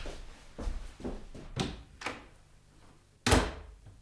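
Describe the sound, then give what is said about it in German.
A door being closed by someone leaving a room, heard as a series of dull, soft thuds that ends in one sharper, louder knock, with no voices over it. “Während Josef die Tür hinter sich schloss”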